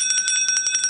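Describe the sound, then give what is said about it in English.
A small, bright bell rings rapidly to mark a feast day, its many quick metallic strikes forming a high, shimmering trill with no talk over it. “And on feast days, we ring the bell”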